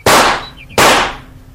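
Two sharp gunshots from a rifle crack out at cows on a pasture. Each is a loud, sudden blast with a short decaying tail, about three-quarters of a second apart.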